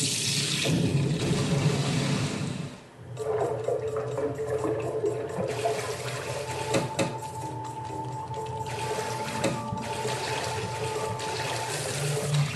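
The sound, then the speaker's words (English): Rushing, bubbling water as a video game character dives underwater: a steady wash of noise that briefly dips, then continues with a constant watery roar and faint tonal hums. “Okay, so because Angelish has dive, we can dive underwater.”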